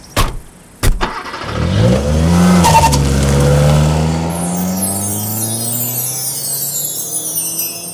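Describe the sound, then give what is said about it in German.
A car starts and drives off: two sharp knocks, then the engine roars up with harmonics that shift in pitch as it accelerates, and a high tire squeal joins in the latter half. “So, einsteigen. Wir fahren los.”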